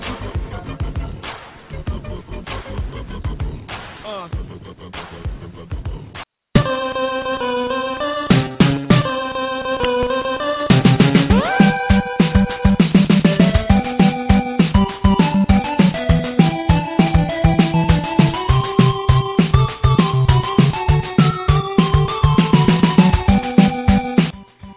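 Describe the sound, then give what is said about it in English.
Soundtrack from the Tecmo Bowl football video game: electronic game music with a steady, bouncy beat and repeating melody lines, broken by a brief gap early on before the main tune drives on. “That's the soundtrack from Tecmo Bowl, which is where I believe a lot of their plays last night came from. Tecmo Bowl, a very, very popular football game back in the day,”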